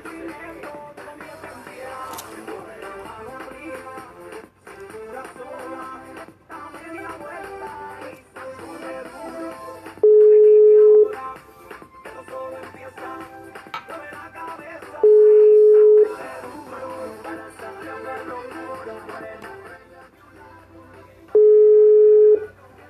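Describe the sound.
Ringback tone of a phone ringing unanswered during a live call. Three steady beeps of about a second each repeat at intervals of roughly five seconds, standing out above a constant background.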